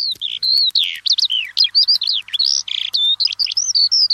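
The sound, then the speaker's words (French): Birds singing in spring: a loud, unbroken stream of high, quick chirps, warbles and whistled notes with rapid sweeps up and down in pitch, heard alone. “Entendez-vous ces ramages, ces chants d'oiseaux? C'est le printemps.”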